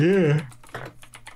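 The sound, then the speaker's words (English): Someone types a search on a computer keyboard, a short run of quick, light key clicks following a brief moment of speech. “Here, I could just type in Finland.”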